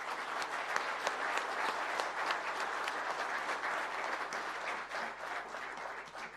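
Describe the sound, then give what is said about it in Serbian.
Audience applause honoring two distinguished men at a formal gathering, a sustained, dense roll of clapping from a large crowd, fairly soft and even throughout, thinning slightly at the end. “Za velikane Miliju Babovića i Božinu Radevića molim jedan veliki aplauz.”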